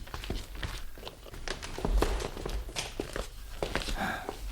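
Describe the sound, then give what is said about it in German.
Footsteps walk into a living room in a radio drama scene: a steady series of soft steps with light rustling, and a voice talking faintly underneath. “Dann kommen Sie rein. Wir gehen ins Wohnzimmer.”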